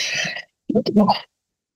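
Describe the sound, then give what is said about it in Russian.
A single sharp sneeze bursts out loud and hissy, followed by a short pause and then a brief voiced sound. “Простите меня, пожалуйста, за этот чих в прямом эфире.”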